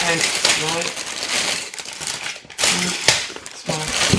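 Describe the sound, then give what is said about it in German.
LEGO pieces are poured out of a glass in a rattling, clattering spill of small plastic parts, with a person talking over it. “Dann schütte ich mal mein Glas aus. Hui. Da ist einiges dabei.”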